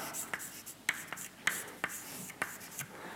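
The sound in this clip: An equation is written by hand on a board in a series of short, sharp tapping and scraping strokes. They come in an irregular rhythm, fairly faint, with no talk over them.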